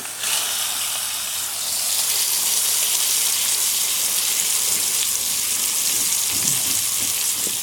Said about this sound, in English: Beautiful, beautiful sizzling sound there.